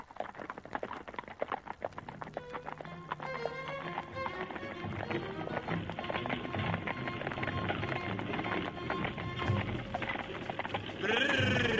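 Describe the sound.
Horse hooves clip-clop as a horse-drawn cart moves off: a fast, dense clatter of many hoof beats running steadily, growing slightly louder near the end.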